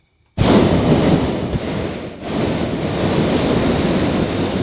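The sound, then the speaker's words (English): Hot air balloon propane burner flaring: a loud, broad roar bursts in abruptly and holds for about four seconds. It dips briefly midway and then keeps rushing on. “But baskets are out, burners are flaring up.”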